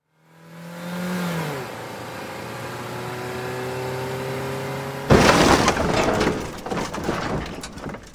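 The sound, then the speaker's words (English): A Land Rover sideswipes a Gypsy jeep: droning engines whose pitch sags, then a sudden loud crash of impact and breaking, shattering debris that rattles on for about three seconds. “The looming form of the Land Rover came out of nowhere and sideswiped the gypsy. The deafening jarring crash”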